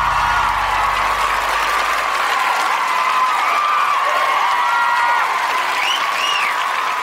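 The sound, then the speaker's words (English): Audience applause rings out loud and unbroken for the full seven seconds, a dense, steady wash of many hands clapping with no voices standing out. “Ladies and gentlemen, put your hands together for the Podcasters.”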